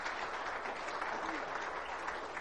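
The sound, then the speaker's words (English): An audience applauding in church, dense steady clapping from many hands at an even, moderate level for the whole stretch, with no voices rising above it. “Give the Lord a hand of applause in his house.”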